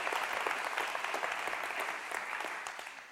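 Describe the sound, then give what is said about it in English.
Applause from a church audience welcoming guests on Palm Sunday, a steady, fairly faint patter of many clapping hands that holds throughout and eases slightly toward the end. “Let's give them a hand and welcome them to our church right now.”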